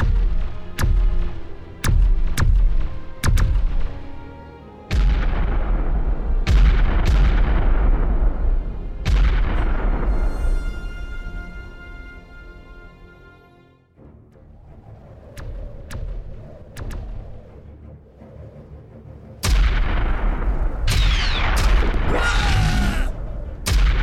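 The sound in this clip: Weapons firing in a battle on a planet after a crash landing, with many sharp blasts and booming shots, some trailing ringing tonal tails, a brief lull midway, then heavy firing resuming.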